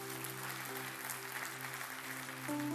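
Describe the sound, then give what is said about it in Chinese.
Congregation applauding at a church service: faint, even clapping that runs steadily throughout, with held tones underneath and a slight swell near the end. “让我们给我们的神一个的掌声。”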